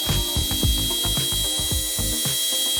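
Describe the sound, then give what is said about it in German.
Dentist's drill boring into teeth, a steady high-pitched whine over a rapid, irregular run of mechanical ratcheting clicks, with no voices. “Wirklich niemand, den ich kenne zumindest, ich auch nicht, geht gern zum Zahnarzt und lässt sich da an den Zähnen rumbohren.”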